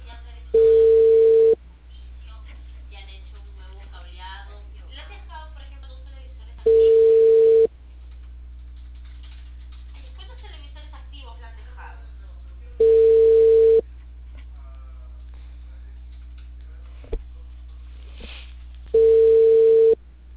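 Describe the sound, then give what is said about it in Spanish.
Ringback tone of a telephone ringing on an outgoing call: four steady, evenly spaced tone bursts, each about a second long, with a constant low hum underneath. “Aquí hay dos números, uno está apagado y timbrando en el otro.”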